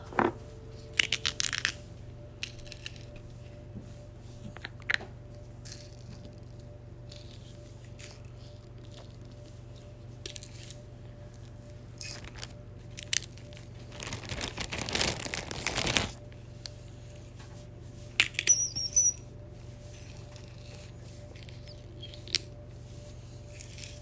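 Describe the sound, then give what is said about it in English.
Hawaiian salt being poured makes a brief granular hiss lasting a second or two, set among scattered soft crinkles and small clicks against a quiet, steady background hum. “Pour in salt.”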